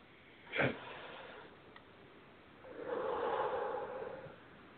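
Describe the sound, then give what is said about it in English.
A deep breath during a calm guided relaxation: a short, sharp nasal inhale, a pause, then a long, soft, airy exhale that swells and fades, quiet throughout with no voices. “Take a nice deep, deep breath.”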